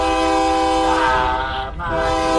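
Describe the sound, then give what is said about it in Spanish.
A train horn sounds as one loud, sustained, brassy blast with rich harmonics. It holds steadily through the whole clip, with a slight dip near the end. “Ah, ya se te fue el tren, se va el tren.”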